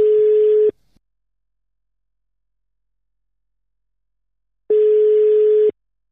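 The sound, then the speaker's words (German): A telephone ringback tone plays while a call is being placed. Two steady, mid-pitched beeps sound alone, spaced about four seconds apart, with silence between. “Den können wir doch jetzt einfach mal spontan anrufen.”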